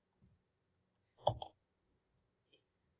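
Keyboard typing gives a few faint, sparse clicks: a tight cluster in the middle and isolated taps before and after, with quiet in between.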